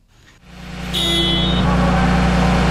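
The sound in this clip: A heavy truck engine starts during a heavy-vehicle repair competition. It cranks, then catches and rises into a loud, steady rumble with a thin high whine on top.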